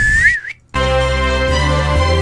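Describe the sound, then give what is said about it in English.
A short, wavering whistle calls in the horses for a chariot entrance, dipping and rising in pitch. After a brief silence, a dense, sustained buzzing tone takes over. “we're gonna press that button there, and then we'll on the count of three whistle in the horses”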